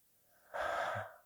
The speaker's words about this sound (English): I'm going to have everybody here. Just take a deep breath.